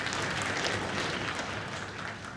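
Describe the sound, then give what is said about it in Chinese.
Sparse, scattered audience applause at a traditional crosstalk comedy performance: a thin, steady patter of hand claps lasting about two seconds at moderate level, with no voices over it. “感谢朋友们稀稀拉拉的掌声。”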